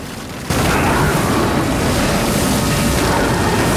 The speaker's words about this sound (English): Then he summons the wind out of it, covering Noah in dust.